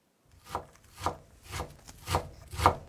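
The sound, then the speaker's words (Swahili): Knife chopping onions and mushrooms on a cutting board: five evenly spaced, woody thuds with a brief scrape, each stroke a little louder than the one before, with no talk. “Kwanza tutakatakata vitunguu na uyoga. Katakata vitunguu kiurefu kwa mpishano wa takribani milimita 2 kisha ukikate kuanzia pembeni vipande vidogo vidogo.”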